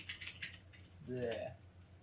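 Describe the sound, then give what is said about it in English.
A few quiet clicks of typing on a computer keyboard, with a brief voice cutting in partway through. “Are you typing Kashyyyk? What are you typing?”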